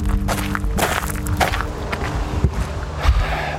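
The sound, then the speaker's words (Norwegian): Footsteps on a wide gravel footpath leading up to Hagenhuset from Langvannet: a steady walking rhythm of crunching steps over continuous rustling noise. “Nå går jeg på den gangveien eh, som fører opp til Hagenhuset fra Langvannet.”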